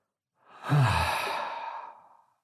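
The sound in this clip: One slow, deep breath drawn in and released as a long, soft, breathy sigh, swelling then fading away alone without any talk.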